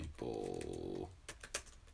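A few sharp clicks of computer keyboard keys as someone types a Google search, coming in quick succession after a steady droning tone that fades out.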